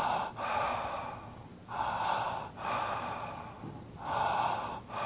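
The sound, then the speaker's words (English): Connected breathing is heard alone, deep in-breaths and out-breaths flowing together without pause in a slow, steady rhythm of soft, airy rushes, each swelling and easing into the next, fairly faint. “a connected breath is a breath where the in-breath and the out-breath flow as a unit, and it sounds like this.”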